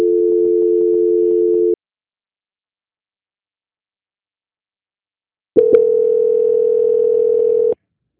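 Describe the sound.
Telephone line tone during a call transfer. Two long, unbroken bursts of a steady mid-pitched tone are separated by several seconds of silence, with no voices.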